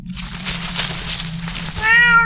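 A cat lets out a single clear meow at the end, rising out of a steady, noisy background hum.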